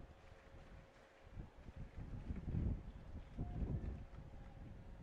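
Wind blows across the microphones at an outdoor college baseball game, producing faint, low rumbling buffets that swell in two stronger gusts before easing back to a soft, steady murmur. No talking is heard.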